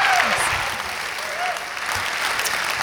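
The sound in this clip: An audience at Hope College applauds to welcome a guest speaker from a church: steady, sustained clapping with voices mixed in, fading slightly toward the end.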